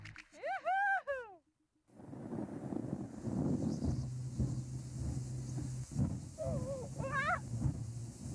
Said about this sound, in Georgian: სახეში ცივი ქარი მიბერავს.